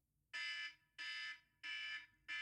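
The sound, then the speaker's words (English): An alarm marks the end of a five-minute timed segment with loud, buzzing electronic bursts. Three full blasts and the start of a fourth come at even intervals, with no voices. “The bell, an alarm will go off after 5 minutes, and it will sound like this.”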